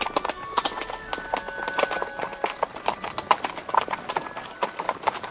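Horses clip-clopping while being held back on a steep, winding forest path under huge beech trees. Many irregular, crisp hoof strikes overlap in an uneven rhythm throughout.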